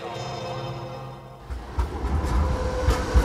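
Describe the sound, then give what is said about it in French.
Rail noise at the main train station in Frankfurt: a steady, layered tonal hum gives way halfway through to a louder, rough rumble with irregular low thumps and clatter. “Daniel, là, on sort de la gare de Francfort”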